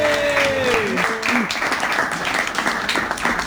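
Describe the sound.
Audience applause greets a comedian taking the stage. A brief voice trails off at the start, then dense clapping carries on steadily to the end.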